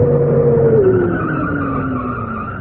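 A car pulling up and stopping, its engine tone sliding steadily lower in pitch as it slows over a constant, fairly loud road and tire noise.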